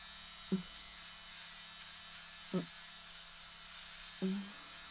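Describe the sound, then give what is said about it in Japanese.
A razor shaves body hair in the groin area, giving a faint, steady electric buzz broken by three brief louder bursts. “VIO の I、 おちんちんの根元のところとお金玉にも生えているので剃っていきます。”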